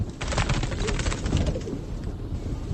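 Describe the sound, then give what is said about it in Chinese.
A small bird calling a few times, with short, repeated bird notes over a low, steady background rumble and no voices. “门口有只小鸟，叫了几声，飞走”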